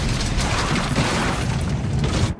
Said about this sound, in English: Flames explode 10 feet into the air.